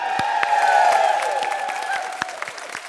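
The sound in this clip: A studio audience cheers and applauds with crisp, scattered claps and whooping calls. The sound swells slightly, then eases off over a few seconds.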